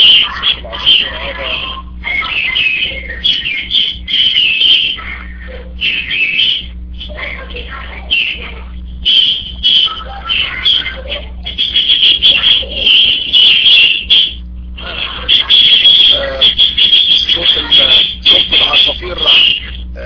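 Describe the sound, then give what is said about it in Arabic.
Small birds chirp loudly in a dense, continuous high chatter that runs under a person talking steadily. “صوت العصافير مرتفع جدا”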